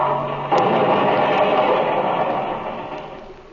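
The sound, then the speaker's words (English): Radio-drama sound effect of an airplane stalling and crashing. A steady engine drone is cut by a sudden loud burst of noise that rumbles on and slowly fades. “Oh, he's stalling. He's stalling. Look at that wing go down. Come on, Jim. Come on, you fellas. He's going to crash.”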